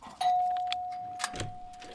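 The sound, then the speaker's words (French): A doorbell rings at a shared flat: one steady electronic tone that starts sharply and holds for nearly two seconds, over faint rustling in the background. “Allez, je sonne.”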